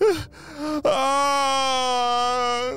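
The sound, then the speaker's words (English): A cartoon villain cries in exaggerated fashion: a brief whimpering sob, then a long, sustained, loud wailing moan on a steady pitch, heard alone. “As Dr. Stinky Breath was crying, huddled in the corner”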